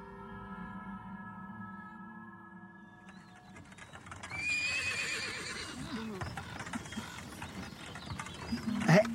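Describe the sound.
Horses pulling a wagon, with hooves clip-clopping and wagon gear creaking after a soft musical opening, and a sharp whinny rising near the end.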